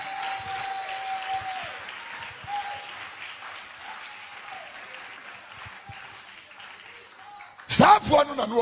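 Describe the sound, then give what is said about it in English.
A church audience clapping hands during a sermon, a dense, even patter running for several seconds beneath a sustained tone, before a loud voice breaks in near the end. “Oh, clap those hands,”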